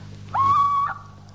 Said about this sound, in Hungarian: Csak a kuvik, a gyászos őr rikoltott szörnyű jó éjszakát.